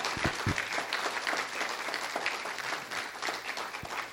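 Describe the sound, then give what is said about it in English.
Audience applause for a group of performers being thanked for their hard work: dense, sustained clapping from many hands that stays fairly even throughout, with a few sharper claps standing out. “So if you guys just want to give them a hand for all the hard work they put in.”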